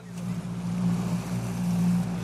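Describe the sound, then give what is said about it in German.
Boat on the water, heard as a steady, low engine drone with a constant tonal hum over a broad wash of noise, unchanging throughout. “jetzt sind wir erstmal noch mal auf dem Boot mit André”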